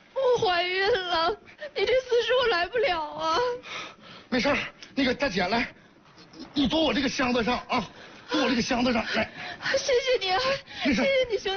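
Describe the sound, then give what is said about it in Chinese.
A woman crying in wavering, whimpering sobs and wails that come in bursts with short pauses between them. “妹子，妹子，妹子，妹子，你别哭，我看没事儿。”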